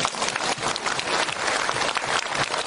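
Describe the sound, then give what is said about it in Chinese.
Steady, fairly loud audience applause during a lecture. Many overlapping claps form a dense, even wash of sound for a few seconds. “鼓掌”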